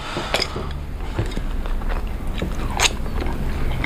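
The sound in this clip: Crisp bites and crunchy chewing as people eat a home meal, a few sharp crunches over a steady low rustle, with no talk.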